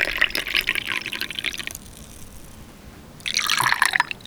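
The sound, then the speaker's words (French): Meat broth from a restaurant is poured in two splashing, trickling bursts, the first lasting under two seconds, then a quiet pause before the liquid flows again, moderately loud with no other sounds. “C'est le bruit du bouillon.”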